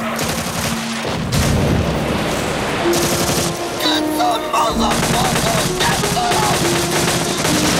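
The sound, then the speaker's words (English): Machine gun fire sprays across a riverbank in a Vietnam War battle scene, dense and loud, with rapid bursts of shots running almost without a break. “sprays machine gun fire across the riverbank, hitting two men who are sheltering behind trees”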